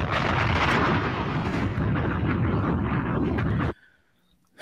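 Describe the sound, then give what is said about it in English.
A bomb explosion sound effect bursts out as a loud, sustained roaring blast of deep rumble and crackle that holds steady for several seconds and then cuts off abruptly into near silence. “I like that bomb right there. Yeah, that was some like nice relaxing bomb.”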